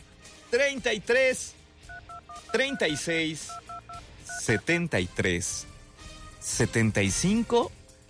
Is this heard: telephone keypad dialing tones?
yes

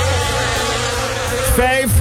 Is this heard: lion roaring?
no

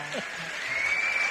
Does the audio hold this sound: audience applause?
yes

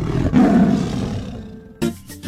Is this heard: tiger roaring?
yes

